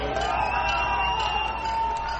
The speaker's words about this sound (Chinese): 在欢呼声和口号声中，外交官、祝福者和示威者都在观看古巴国旗在新成立的大使馆外面升起。